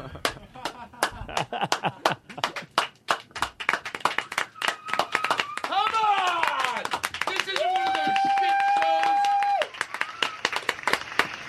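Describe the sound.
A crowd claps in a brisk, rhythmic beat of sharp hand slaps, with voices and shouts rising over the clapping midway before the claps return.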